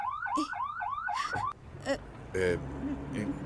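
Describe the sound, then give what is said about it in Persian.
A car alarm goes off with rapid, repeated rising whoops for about a second and a half, then breaks off, leaving quieter scattered sounds. “این صدای چی بود؟ به نظرم دزدگیری یه ماشین بود.”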